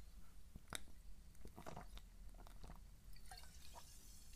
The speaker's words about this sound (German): Und jetzt muss ich erstmal einen Schluck trinken.